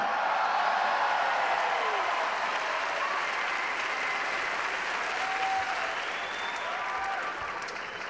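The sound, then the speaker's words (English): A live comedy crowd in Abu Dhabi cheers and applauds after a comedian's joke, a dense, sustained roar of clapping mixed with whoops that holds steady and then eases slightly toward the end. “I threatened to kill them. They all go, yay!”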